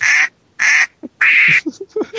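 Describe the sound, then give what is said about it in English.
A pet duck quacks three loud, harsh, raspy times with short pauses between them, then gives a few softer, shorter calls. “My pet duck has a few things to say to you. Go ahead, ducky.”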